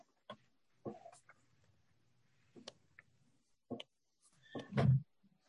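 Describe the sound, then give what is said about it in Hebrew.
A book, the Yabia Omer, being opened and handled: sparse soft taps and brief papery rustles, then a louder, fuller burst of handling noise near the end, with no talk over it. “כן, אני פותח את היביע עומר.”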